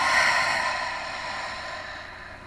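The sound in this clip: A long, deep exhale during a guided breathing exercise, a steady breathy hiss that slowly tapers off over soft sustained tones.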